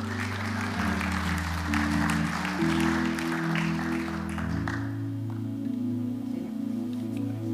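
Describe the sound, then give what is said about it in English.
Applause from a church audience for a woman coming up to read the psalm: a dense patter of clapping over sustained musical tones, fading out after about five seconds while the tones carry on. “How about giving Bev a hand as she comes?”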